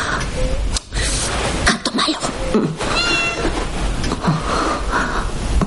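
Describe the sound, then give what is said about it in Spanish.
A cat meows in a house with a loud, drawn-out, strained and wheezy cry set against dense background noise. “Encuentra a uno de los gatos sentado sobre la chaqueta olvidada de Billy.”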